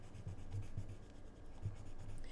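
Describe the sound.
Pencil drawing on paper while sketching a baby's face: faint, soft scratching strokes that come and go in a few short bursts, with no voices.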